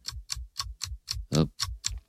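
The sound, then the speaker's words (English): A clock ticking in a steady, even rhythm, nine crisp ticks in about two seconds, heard alone and fairly quiet. “Yes, by the way, I'll get to the punchline in a second, but those seconds ticking away are highly relevant.”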